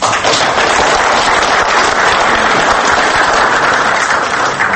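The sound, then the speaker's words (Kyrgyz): Audience applause at a screening of student-made films: dense, even clapping that stays loud and unbroken for nearly five seconds, with no voices above it. “Мына ушуларга кол жабабыз.”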